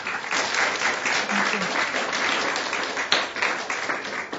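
Live audience applause at the Commonwealth Club in San Francisco, greeting a guest for a climate discussion: dense, steady clapping that fills the whole stretch at an even loudness, with no talk over it.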